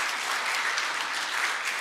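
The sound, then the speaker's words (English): Steady, continuous applause from a church audience giving the children a hand for their video, a dense even wash of clapping that holds at one level throughout. “Can we start by just giving our kids a hand for this video they did for us for this series?”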